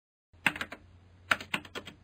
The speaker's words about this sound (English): He started to type the coordinates for Newbridge.